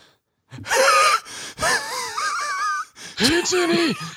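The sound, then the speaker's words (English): A human voice imitating wheezing: strained, breathy, wavering vocal sounds in three drawn-out bursts of moderate loudness. “Wheezing.”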